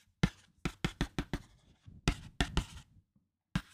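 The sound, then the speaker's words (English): A stylus scratching on a Boogie Board writing tablet as words are written. Many short, dry strokes come in an uneven rhythm, with a brief pause midway and a single stroke at the end. “It's a boogie board. A boogie board. I wrote No Time to Die. Can you hear that?”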